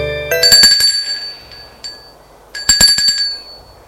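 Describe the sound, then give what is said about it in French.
A doorbell at a gate rings in two bright, metallic bursts separated by a short pause. Each burst is loud and leaves a ringing tone that lingers briefly. “Demi-heure plus tard, l'on sonne au portail.”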